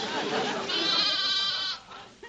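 A lamb bleats in a loud, wavering, tremulous cry with a rich harmonic tone that holds for about a second before fading out.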